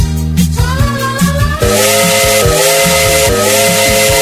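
A steam train whistle sounds as a long, sustained, piercing tone laid over a thumping, rhythmic music beat that continues throughout.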